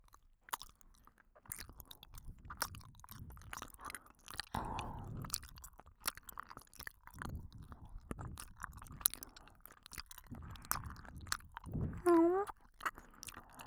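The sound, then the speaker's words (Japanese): Chewing gummy candy up close: many soft, sticky squelches and small clicks and smacks in an irregular rhythm over about fourteen seconds, with faint low rumbles between bites. “さっきのカリカリっていう音とは違う音がするんじゃないかな。それじゃあグミいただきます。”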